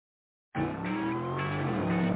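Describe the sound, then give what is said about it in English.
A car doing burnouts and donuts lets out a revving engine roar layered with high tire squeal. It bursts in suddenly after a short silence and stays loud and sustained. “I want to go fast. I said burnouts and donuts only.”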